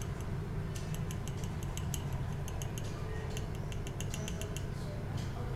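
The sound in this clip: Faint, light clicking and rattling of small plastic pieces as a Re-Ment Japanese miniature dollhouse toy is unpacked: many quick, dry ticks scattered over a low, steady background hum.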